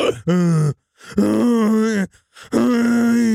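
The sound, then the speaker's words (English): Groaning from inside a toilet stall: three drawn-out, low, strained moans with short pauses between them, loud and without other sounds. “The groaning started in the stall again.”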